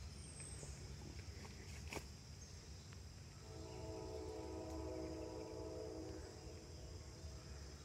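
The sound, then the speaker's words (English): A train passes with a steady, loud rumble throughout, and a long, sustained horn tone sounds through the second half before fading near the end. “did you hear the train?”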